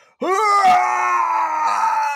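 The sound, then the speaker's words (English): A voice imitating a video game boss's wretched scream at the start of a battle: a single loud, strained cry that jumps up sharply at onset and then holds steady for about two seconds. “My favorite thing about fucking Clayton is he starts the battle by screaming, just going,”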